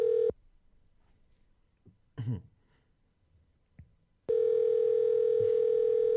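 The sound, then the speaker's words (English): A telephone dial tone plays as a call is being dialed. The steady tone sounds briefly, cuts off into a quiet gap with a few small noises, then returns and holds loud and unbroken to the end. “Did I dial it or you dialed? I dialed it. Okay. I'm dialing it again.”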